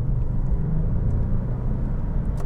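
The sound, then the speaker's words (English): Steady low road rumble from a car being driven in town, a continuous deep drone with a faint engine whir and a brief tick near the end, no talking. “excuse me while I drive a little bit here, don't kill the pedestrians.”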